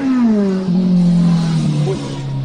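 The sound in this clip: Engine of a small BMW GS motorcycle passing: a loud, steady drone whose pitch sinks gradually as the bike goes by, holding strong to the end.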